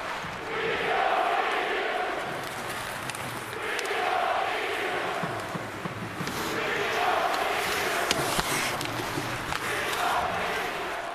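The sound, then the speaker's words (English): Loud, sustained crowd jeering from New York Islanders fans at Nassau Coliseum greeting returning former captain John Tavares, a dense roar that swells and eases in waves throughout. “That sound from Sportsnet's broadcast, that is New York Islanders fans who were fired up to welcome back former captain John Tavares to the building in Nassau Coliseum. It was the usual round of jeers,”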